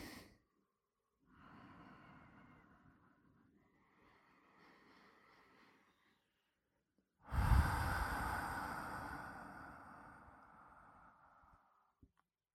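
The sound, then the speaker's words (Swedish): Deep, deliberate breathing: quieter drawn breaths give way to one loud, long exhale that gradually tapers off, followed by a small click. “tre djupa andetag. Följ med nu.”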